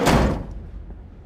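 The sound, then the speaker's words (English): A van's sliding door slides shut with a single short, heavy thunk and a brief rush of noise, then decays quickly into a faint low rumble. “He slides the door shut.”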